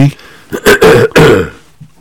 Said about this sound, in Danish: Den der forårshoste, den må du altså lægge lidt til side.